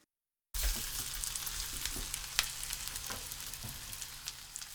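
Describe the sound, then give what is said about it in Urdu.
Sardines frying skin side up in a generous layer of oil in a hot frying pan: a steady, crackling sizzle begins abruptly after a moment of silence and continues with scattered pops. “ایک frying pan کو گرم کیجیے اور اس میں روزمرہ سے ذرا ہٹ کر کچھ زیادہ تیل ڈالیے۔ اب اس میں سارڈین مچھلیوں کو اس طرح رکھیں کہ کھال والی سمت اوپر کی جانب ہو۔”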